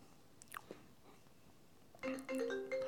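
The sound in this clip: A mobile phone ringtone breaks in near the end as a loud electronic melody of stepped tones, after a quiet stretch with a few soft clicks and rustles.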